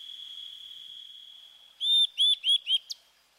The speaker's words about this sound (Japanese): 枝の上のヒナがふと体を持ち上げます。